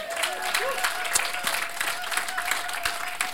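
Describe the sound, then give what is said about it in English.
An in-house audience applauds, a steady, moderately loud patter of clapping hands with a faint sustained tone underneath. “In-house audience, give our online audience a hand.”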